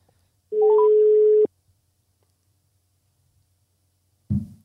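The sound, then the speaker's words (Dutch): A telephone rings as a call is placed: one steady electronic ring tone lasting about a second, then silence, then a brief low knock as the line is picked up. “Zullen we hem eens even bellen?”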